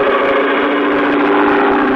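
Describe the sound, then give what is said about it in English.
An airboat with a powerful rear motor and an airplane-type propeller takes off over shallow bayou water, a loud, constant droning roar that holds steady throughout with no voices. “At the back was a powerful motor with a propeller of the airplane type.”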